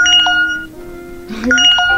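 Message notification tones chime from a phone as social media, email and chat messages keep arriving. Bright, bell-like tones ring in two clusters, one at the start and one near the end, with quieter sound between them.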